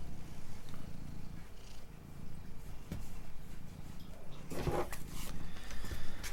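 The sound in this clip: A cat purrs in a continuous low, rumbling drone with a steady, pulsing rhythm. It is fairly soft and heard alone, with a brief rustle partway through.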